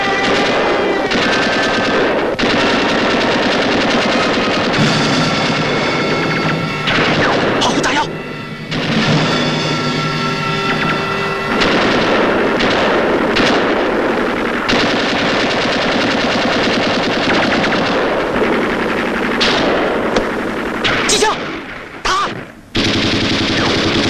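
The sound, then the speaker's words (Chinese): Heavy gunfire as soldiers shoot at the enemy at a bridge under searchlights, with dense machine-gun bursts rattling almost continuously for over twenty seconds and only brief gaps. Voices seem to rise now and then amid the shooting. “方连长见状，急忙命令我军向敌人射击。”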